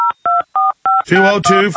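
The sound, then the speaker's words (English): Four short, steady telephone keypad dialing tones beep in an even rhythm, each separated by a brief gap, then a voice begins talking over the line. “I'm going to go ahead and talk to him right now. Let's go ahead and call the White House. Call the local theater.”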